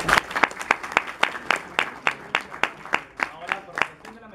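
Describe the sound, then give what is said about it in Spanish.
Applause from an audience after a lecture at a conference: many loud claps in an even, steady rhythm, continuing without pause. “Por favor, también lo agradecemos con fuertes aplausos.”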